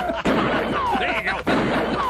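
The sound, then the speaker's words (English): Two sharp gunshots fired on stage at a political rally, each a loud, abrupt crack about a second apart, with voices carrying on between and after them. “Now shoot your guns. Blow! Shoot my guns.”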